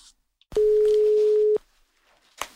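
Telephone ringing tone heard while placing a call: one steady, mid-pitched electronic tone lasting about a second, with quiet line noise before and after.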